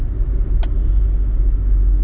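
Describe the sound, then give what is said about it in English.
A low, steady road rumble inside a moving ride-hailing car: a dull, continuous engine and tyre drone with a single faint click partway through and no voices. “I'm just in an Uber with this security guy who won't get out of the car, and the Uber driver”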